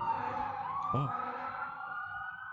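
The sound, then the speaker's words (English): Sirens from a fire engine and an ambulance pass in the street, a continuous wailing tone that sweeps and wavers over a low traffic rumble. “Must be a car accident. I hope everyone's okay. There's a paramedic and a fire engine.”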